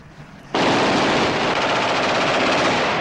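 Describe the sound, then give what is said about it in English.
Gunfire rings out as a man is shot beside a car in a gangster shootout: an abrupt, loud, rapid-fire burst that starts suddenly after a brief quiet and keeps going without a break to the end. “He shoots the man before he can open the car door.”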